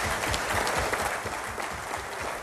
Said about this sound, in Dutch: Graag voor die man een hartelijk applaus.